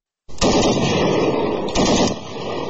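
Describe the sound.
Heavy gunfire exchanged between Afghan and Pakistani border soldiers along the Durand Line: a loud, dense, continuous roar of rapid shots with a few sharper cracks standing out, and no voices.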